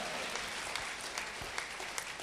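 An audience applauds during an Italian church service after a prayer. The clapping is soft, even and continuous, with no voices over it.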